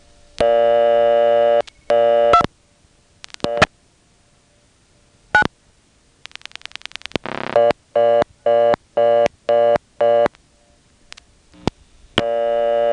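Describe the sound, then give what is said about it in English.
Telephone dialing of 29 through a step-by-step second selector, where the 9 lands on a busied-out level. A few long steady tone bursts give way to a fast run of many clicks, then many short, evenly spaced busy beeps. “Let's go back to that second selector that I found on 2 and try dialing 29.”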